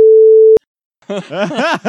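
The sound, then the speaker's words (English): A single steady censorship bleep, a loud, even, mid-pitched tone, covers a word in a person's story about their workplace, then cuts off into a moment of silence before the person goes on talking. “I have to beep this because I'm not allowed to say where I work on social media.”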